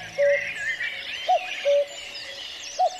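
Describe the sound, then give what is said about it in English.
A cuckoo calls in a few soft, hooting two-note phrases, each a higher note dropping to a lower one, with gaps between. Faint chirping from other birds runs underneath. “If you hear a cuckoo calling and then you start to run away from it as quickly as you can”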